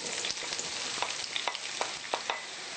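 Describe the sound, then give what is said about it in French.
Onions sizzle in hot oil with a dense, bright crackle, broken by repeated short scraping strokes at a fairly regular pace. “Alors j'ai fait chauffer l'huile. Maintenant que mon huile est prête, je vais y verser les oignons”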